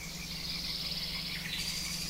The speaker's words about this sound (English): we're going to let the frogs and the birds take it out.